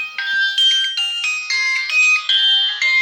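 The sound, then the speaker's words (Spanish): Mobile phone ringtone for an incoming call: a bright electronic melody of quick, clear tones that changes pitch step by step, playing loud and steady throughout. “Uy, te están llamando.”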